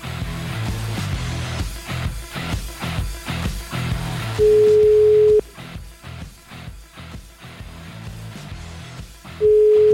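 A telephone line tone sounds while a call is being placed: one steady, even beep of about a second, then another starting at the very end, over a busy rhythmic background.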